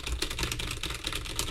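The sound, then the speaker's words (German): Rapid keystrokes on a computer keyboard while an email is typed: many quick, crisp clicks in a steady, busy stream at an even level, with no voices. “Okay, warte, ich schreibe direkt eine Mail.”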